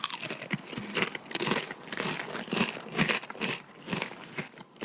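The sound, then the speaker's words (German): Two people crunching potato chips: loud, crisp, irregular crackling bites and chewing that continue throughout with no talking. “Jetzt hört ihr einfach zwei Leute, die einen Chip essen.”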